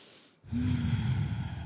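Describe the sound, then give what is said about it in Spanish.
A deep breath drawn in through the nose during a guided breathing exercise: a steady, soft rushing inhale lasting about a second after a brief quieter moment. “Nuevamente inhalan.”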